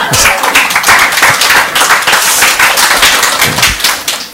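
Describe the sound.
Congregation applauding at a Sunday church worship service: dense, steady clapping fills the whole stretch at an even, loud level, with no clear voices over it.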